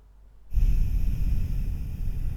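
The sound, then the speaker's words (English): A slow, deep breath taken during a breathing exercise: after a short silence, a loud, steady rushing breath begins and carries on to the end with no talk. “pausing at the top, and then you breathe out. And a really nice long out, and then you pause at the bottom just before you take another big deep breath in.”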